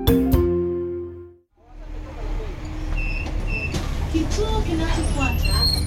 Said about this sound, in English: We're in Dar es Salaam, Tanzania, and these are the sounds of a morning commute. But it didn't always sound this way. What you're hearing is the Dar es Salaam Bus Rapid Transit System, or DART for short.